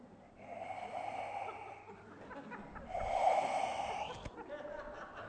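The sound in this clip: Heavy, rasping breathing in two long, drawn-out breaths with a harsh, wheezy, mechanical edge, loud and steady with a short lull between them.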